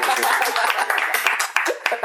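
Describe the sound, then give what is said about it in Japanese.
Sparse applause, a few scattered hand claps mixed in with people talking. “拍手が少ないですね。”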